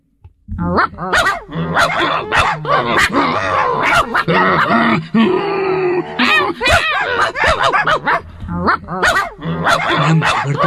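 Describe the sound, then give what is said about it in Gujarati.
Two dogs growl and bark at each other in a heated fight. Many rapid, loud barks overlap with rough growls and grunts, continuing without pause. “એકબીજાને ઘૂરકીને સામ સામે ભસવા લાગ્યા. ભસવા લાગ્યા અટકે જ નહીં, અને ભસતા ભસતા એ લોકો ઝઘડી પડ્યા.”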